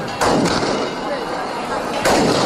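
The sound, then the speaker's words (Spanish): Shotgun salvos fired during a religious procession through village streets, a few sharp booming reports bursting over a continuous loud crowd din. “Continúa la Virgen del Rocío vestida de pastora recorriendo las calles de la aldea almonteña entre vivas, palmas y salvas de escopeta.”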